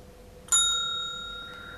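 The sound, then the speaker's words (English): A single bright bell ding, the signal to turn the page in a read-along story, strikes cleanly and rings on with a long, slowly fading tone over near silence. “When you hear the bell, turn the page.”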